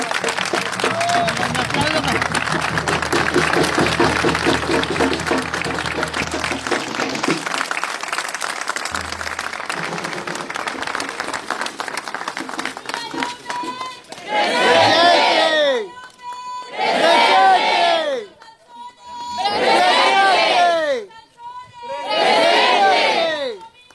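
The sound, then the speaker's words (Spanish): An audience applauds and cheers for students who studied at the venue: sustained clapping and crowd noise, then four loud, rhythmic bursts of cheering shouts separated by short pauses. “Vamos a hacer un fuerte aplauso para los chicos que estudiaron acá, porque ellos están acá presentes.”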